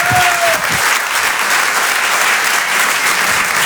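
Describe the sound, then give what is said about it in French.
A comedy club audience applauds and cheers in a dense, steady wash of clapping that holds at a loud level throughout with no break. “Faites du bruit s'il vous plaît pour Mado sur Rire et Chanson.”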